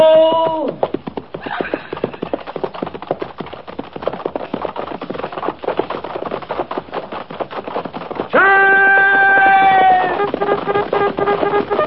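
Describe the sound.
Cavalry horses trot in a company, with many quick hoofbeats clattering in a dense, uneven rhythm that continues for the whole stretch at a moderate level.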